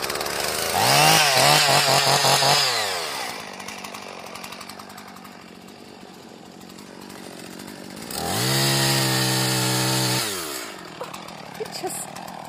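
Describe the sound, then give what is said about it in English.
A chainsaw cuts through the needle-covered trunk of a Christmas tree in two loud revving bursts separated by a quieter idle stretch. “Just melts through that needle-covered trunk of the tree and down it falls in a matter of seconds.”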